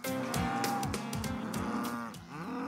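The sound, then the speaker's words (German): Cattle moo loudly on a farm in Neustrelitz before being moved out to pasture. Deep, bellowing calls overlap almost without pause, with several animals lowing at once. “Auf dem Sophienhof in Neustrelitz machen sich die Rinder lautstark bemerkbar”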